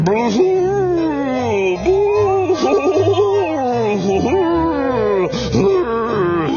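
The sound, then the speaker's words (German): A voice imitates the eerie howl of a vampire creature in a long, wavering, moaning wail. The pitch swoops up and down in drawn-out glides and stays loud and sustained for several seconds. “Das Vampirgeschöpf im schwarzen Umhang rauscht aus der Truhe heraus, fletscht seine spitzen Zähne und gibt ein gräuliches Heulen von sich.”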